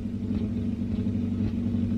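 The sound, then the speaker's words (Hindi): Steady low engine rumble of a car being driven, a continuous deep hum with a faint hiss above it, holding an even loudness throughout, with no voices. “ये क्या कर रहे हैं? गाड़ी तेज मत चलाइए।”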